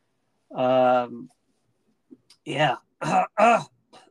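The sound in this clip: Throat clearing from a congested throat: one long, loud, voiced rasp, then after a pause a few shorter rough bursts.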